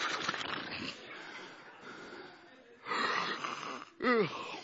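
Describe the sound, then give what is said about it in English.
A preacher imitates a yawn during a sermon with a faint, breathy drawn-out inhale followed by a short voiced sigh that falls in pitch. “can y'all accept it that Jesus was so much a man that he would yawn?”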